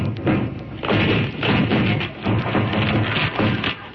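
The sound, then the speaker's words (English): Heavy thuds pound repeatedly against a door being broken down, many blows in a fairly steady rhythm, dull and loud on a muffled, narrow-sounding recording. “Now break down the door.”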